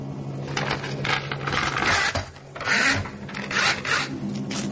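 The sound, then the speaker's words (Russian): Paper is torn as books are ripped apart, heard as several rasping rips in uneven bursts over a low, sustained tonal drone. “Вы слышали звук разрываемой бумаги? Так рвали и уничтожали книги экспериментаторов”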